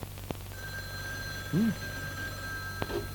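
A telephone rings with an incoming call to a call-in show: a thin, steady high ringing tone is sustained over a low hum, with a couple of sharp clicks and a short warbling blip midway.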